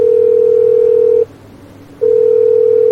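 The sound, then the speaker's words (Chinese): A telephone call's ringback tone rings unanswered: a steady, low electronic tone holds for a little over a second, cuts off, then starts again and continues to the end. The tone stands alone, with no talk. “嘿，不接电话啊？怎么不接电话？ 再试一次。”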